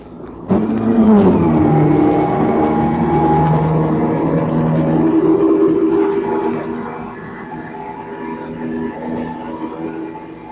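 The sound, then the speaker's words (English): Submarine underwater noise on sonar listening gear: a steady machinery drone with strong tonal harmonics that starts abruptly after half a second, stays loud for about six seconds, then eases slightly and carries on. “But a tin fish sounds like this.”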